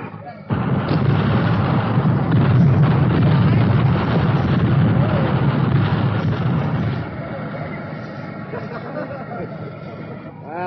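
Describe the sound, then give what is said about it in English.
Artillery firing in volleys makes a loud, dense roar of rumbling blasts that blur together without distinct separate shots. It stays heavy for about six seconds, then eases to a lower level. “Request two volleys. Repeat fire for effect. Over.”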